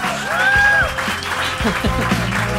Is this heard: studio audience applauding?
yes